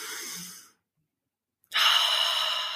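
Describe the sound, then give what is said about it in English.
A big, deep grounding breath during breath work: two long, airy breath sounds split by a short silence, the second louder and more forceful before slowly tailing off. “can you lead us in a big, giant, grounding breath?”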